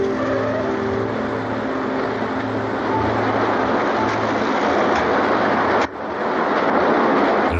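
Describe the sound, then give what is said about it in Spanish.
A car arriving at a roadside restaurant in a film scene: a steady engine hum and road rumble with low throbbing, a brief dip near the end, then the drone continues. “El coche llega al restaurante Luis al borde de la autovía.”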